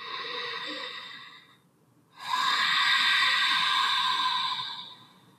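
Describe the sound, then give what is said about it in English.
Ujjayi breathing, with the throat slightly constricted and air drawn in and out through the nose, makes two long, hissing breaths split by a brief pause, the second fuller and louder than the first. “And begin to welcome in an Ujjayi breath, a slight restriction in the back of the throat when you inhale through the nose and exhale through the nose.”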